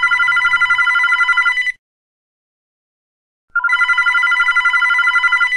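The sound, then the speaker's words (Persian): A telephone bell rings in two long, trilling bursts separated by a silent pause of about two seconds, each burst a bright, rapidly warbling metallic ring. “حدود 8 صبح بود که ساسان زنگ زد.”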